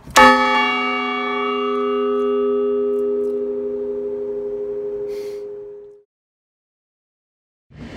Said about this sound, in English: So the clock has the capability of striking the bell, and it does it by pulling on this cable, and it sounds like this.